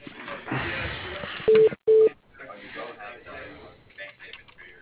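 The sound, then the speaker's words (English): Two short, steady, mid-pitched telephone ringing tones sound on a narrow phone line while a call is being connected to voicemail. Muffled voices are heard before and after the tones. “All right, hold on. I'll connect you to his voicemail.”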